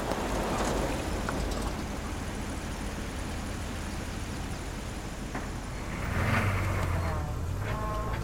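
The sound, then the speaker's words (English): A white furniture and accessories truck pulls into the driveway of a suburban house, its engine a low, steady rumble that swells briefly louder near the end. “A white furniture and accessories truck pulls into the drive of suburban house.”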